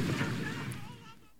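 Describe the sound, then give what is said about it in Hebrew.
A crashing helicopter explodes in a faint, low rumbling blast that swells briefly and then fades away over about a second. “אגב, המסוק מתרסק, וואו, איזה פיצוץ.”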